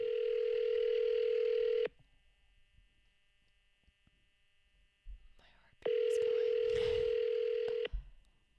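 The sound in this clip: A phone call ringing out: two long, steady ringback tones of about two seconds each, separated by a quiet pause with faint background rustles.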